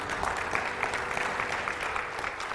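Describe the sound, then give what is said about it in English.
Audience applause for the band at a church candlelight service, a steady, dense wash of many hands clapping that continues on its own without talk. “Would you give the band a hand for a wonderful job?”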